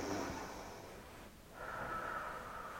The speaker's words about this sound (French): Et quand tu rentres de l'air en toi, tu inspires, tu gonfles ton ventre. Regarde le mien. J'inspire.